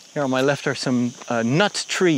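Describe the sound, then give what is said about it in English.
Crickets chirp along a dry, warm path where no birds are heard: a steady, faint, high trill runs beneath a person talking throughout. “And all around me, I can hear these crickets,”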